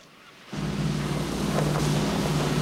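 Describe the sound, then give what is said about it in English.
A tugboat's engine rumbles as it tows a huge rubbish barge along a river. After half a second of near quiet, a loud, steady, low droning rumble with a washing noise sets in and continues. “Wally and Dave have landed on a huge rubbish barge that's being towed along the river by a tugboat”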